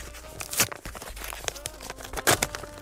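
A paper envelope is opened and handled: many irregular crinkling and rustling bursts of paper, some sharper, tearing-like crackles standing out among softer handling noises.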